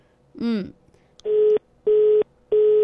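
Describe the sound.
Telephone tones as a call is placed: a brief warbling sound, then three identical steady low tones repeating at even intervals with short gaps between them.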